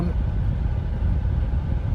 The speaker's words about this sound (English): As you can probably hear, there's some AC.